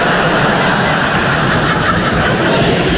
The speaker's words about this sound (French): qu'est-ce que c'est comme véhicule, ça? Un quad, d'accord.